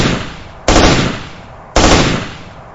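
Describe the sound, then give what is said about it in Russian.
Short bursts of automatic fire from an assault rifle, loud and harsh, with each burst trailing off in a long decaying tail. A few bursts sound in turn with no voices. “Пустил 3 короткие очереди из автомата.”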